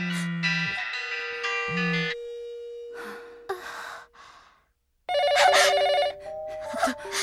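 A home telephone rings in two bursts of bright electronic warbling tones. Soft sighing breaths fill the pause between them, and the second ring is louder and denser.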